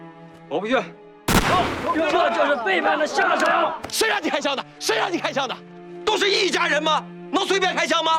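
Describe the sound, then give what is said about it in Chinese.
A single sharp gunshot cracks out loudly, followed at once by loud, excited men's voices shouting and talking over one another. “谁让你开枪的？谁让你开枪的？”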